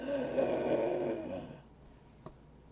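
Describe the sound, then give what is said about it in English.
A heavy, rasping inhaled breath from a suffering man, a loud, noisy draw lasting over a second that cuts off into quiet, followed by a faint single click. “And he breathes in heavy again.”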